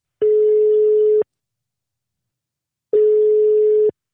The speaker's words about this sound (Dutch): wat mij betreft is het tijd om Tony te gaan bellen om nou, eens even gewoon lekker wat te sparren.